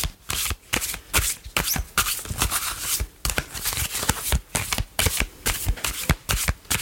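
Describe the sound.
Tarot cards being shuffled: many crisp, rapid riffling and slapping bursts in an uneven rhythm, loud and continuous, with no talk over them.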